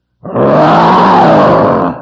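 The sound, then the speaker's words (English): A lion roars after a kill on the hard African ground, one long, loud, rough roar that starts abruptly, holds steady and fades slightly at its close. “A lion roars after his kill. He puts his head down to the hard pan floor of the African area, and he”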